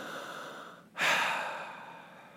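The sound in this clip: A single deep breath taken just before speaking, one loud rushing intake that starts sharply and then fades slowly over about a second, with no talk around it.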